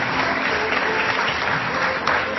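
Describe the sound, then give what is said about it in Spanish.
Applause at a ceremony honouring someone's work, a steady, dense wash of clapping hands that holds at an even, fairly loud level throughout without pause. “Y por supuesto, lo queremos aplaudir”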